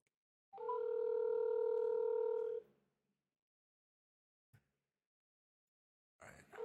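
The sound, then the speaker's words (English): A telephone dial tone sounds while a call is being placed: a steady, buzzy tone holds for about two seconds and then stops, followed by silence, one short click and a brief noise burst at the end. “I'm gonna call James real quick and see.”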